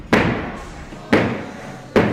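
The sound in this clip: Gumboot dancing, with stomps and slaps landing as three heavy, sharp thuds spaced about a second apart. Each hit rings out briefly before fading.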